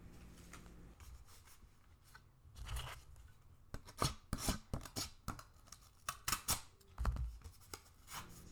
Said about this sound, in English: Open it. Okay, sure. I'll grab a box cutter real quick.